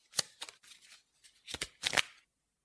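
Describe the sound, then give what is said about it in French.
A deck of playing cards is turned between the fingers, giving a few soft, crisp riffling and flicking bursts with short pauses between them. The sound is quiet and heard alone. “Le lecteur a un jeu de cartes. Il le retourne entre ses doigts.”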